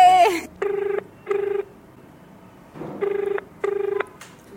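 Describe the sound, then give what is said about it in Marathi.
Telephone ringing tone on an outgoing call: two pairs of short, buzzy electronic rings separated by a longer pause, with quiet background in between. “आपण call करणार आहोत मिलिंदच्या आईला”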